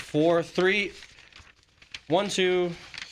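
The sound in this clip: Five or six sheets of paper notes rustle and crinkle in a soft, brief burst between stretches of talking.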